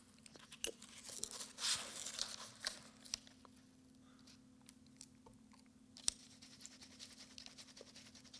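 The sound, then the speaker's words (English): Dry, scratchy pen strokes of ink drawing a small squiggle on papyrus: a dense cluster of rough scraping in the first few seconds, then mostly quiet with a few faint scattered ticks and one sharp click. “All right, so I'm drawing a little squiggle on there. Papyrus is a finicky thing.”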